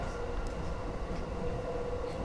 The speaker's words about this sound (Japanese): 上り東京方面ホーム4番線に到着をいたします。お出口は左側です。